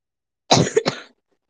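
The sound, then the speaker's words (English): A single harsh cough with choking, two rapid loud bursts back to back with a brief strangled rasp caught between them, then silence. “It's the kind of cough where you like choke.”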